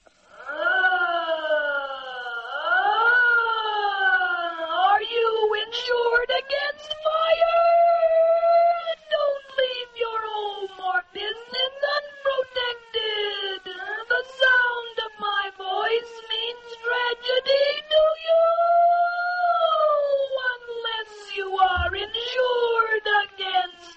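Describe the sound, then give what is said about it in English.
A fire engine siren made with a voice-shaping effect wails in repeated rising and falling sweeps for about 24 seconds. The sound has a syllabic, voice-like quality and stays loud and steady with brief dips between wails. “the sound of a siren on a fire engine might be used to identify the fire insurance, and the commercial would sound something like this.”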